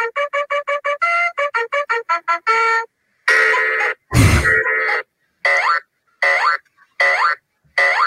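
A children's TV show theme song, once used as a morning alarm clock, opens with rapid stuttering electronic tones. Longer sustained bursts follow, with a low thump partway through, then short separated blasts.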